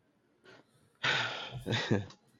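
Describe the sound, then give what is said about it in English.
A hesitant breath: a faint early puff, then a sharp, noisy intake of air that runs into a short voiced sound before trailing off. “I hear your hesitation there. I hear that breath.”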